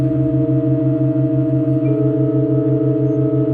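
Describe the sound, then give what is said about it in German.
Sustained tones of a long-running church performance in Halberstadt, with a newly added A4 joining the chord. A steady layered drone holds throughout, with a pulsing low tone underneath and another held note entering about halfway through. “Der insgesamt 17. Tonwechsel hat stattgefunden und ein neuer Ton, ein eingestrichenes A, ist dazugekommen.”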